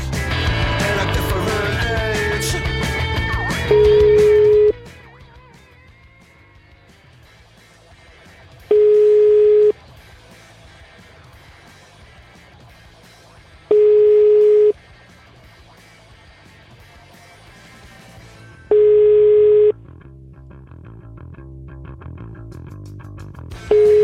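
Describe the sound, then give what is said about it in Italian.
A telephone ringback tone sounds while someone calls a priest back: four steady, mid-pitched beeps about five seconds apart, with a fifth starting at the end. They follow a louder, dense opening passage and play over a faint background. “Richiamiamo Don Claudio.”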